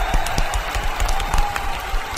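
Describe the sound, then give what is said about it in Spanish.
Applause from listeners after a story is read aloud: dense, steady clapping that stays even in level for about two seconds. “Fin. ¡Aplausitos!”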